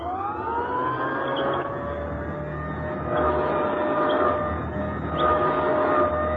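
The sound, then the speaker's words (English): An old-style vacuum sweeper pushed back and forth over a rug, producing a steady droning motor whine with layered harmonic tones over broad rushing noise. The drone swells gently in a few places as the machine moves. “The machine would be passing back and forth over a rug. It would sound like this.”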